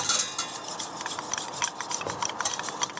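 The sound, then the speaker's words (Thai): A whisk stirs powder into liquid until it dissolves clear, making many quick, light metallic clinks and scrapes in an irregular rhythm, fairly faint, with no talk. “แล้วก็จะมีตะกร้อนะคะเอาไว้คนนะคะดูยังไงก็คือท่านผู้ชมลองดูค่ะให้เขาละลายให้ใสเลยนะคะ”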